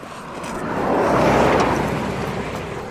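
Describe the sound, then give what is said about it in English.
A car speeds past on a straight coastal road, a broad rushing roar that swells to a loud peak midway and then fades away. “And they do seem to like driving past us quite quickly along this stretch, don't they? It's the only bit of straight road in the whole of this part of the coast.”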